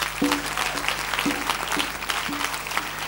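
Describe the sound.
Applause at a church sermon: a steady wash of many hands clapping fills the whole stretch, dense and fairly loud, with no speech over it.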